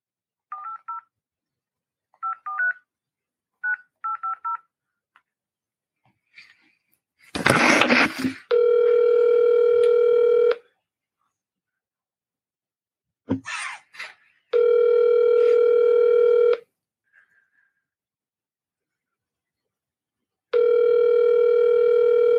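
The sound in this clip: Telephone dialing and ringing for an outgoing call: a few short touch-tone beeps, then a burst of static, followed by three long, steady ringback tones evenly spaced with quiet gaps between them.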